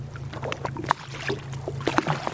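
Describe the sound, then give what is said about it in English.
A boat bobbing on a deep-blue sea among the Greek Cyclades islands, near Milos and Kimolos: a steady low drone runs beneath irregular splashing and slapping of water against the hull. “We took a boat to the Cyclades.”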